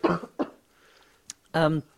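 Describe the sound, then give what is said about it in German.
Short, sharp coughs from a person who is slightly unwell: two quick bursts close together, then a brief pause and a louder voiced sound, moderately loud. “Ich muss nochmal husten, Entschuldigung.”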